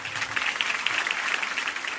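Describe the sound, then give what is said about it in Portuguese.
Applause from a group, a dense and steady patter of clapping that holds at an even level for about two seconds, with no voices. “A todas e todos vocês, nossa admiração e aplauso.”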